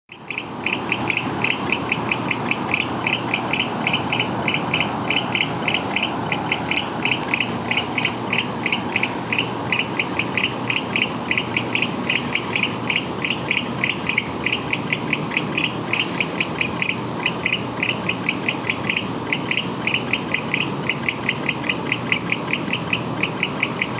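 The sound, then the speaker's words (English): American barn owl calls: a long, unbroken series of rapid, harsh, rhythmic pulsed notes, high-pitched and buzzy, holding an even tempo and loudness from start to end. “American barn owl.”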